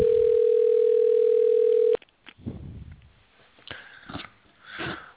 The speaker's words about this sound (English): She's anticipating our call, and it's dialing, and there it is.